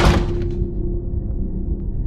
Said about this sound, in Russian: И выбежала из квартиры, хлопнув дверью.